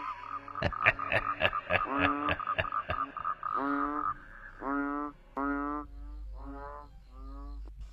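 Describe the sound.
Frogs croaking at a pond beside a cemetery: many rapid, pulsed croaks come in rhythmic bursts that repeat steadily one after another, fairly loud throughout.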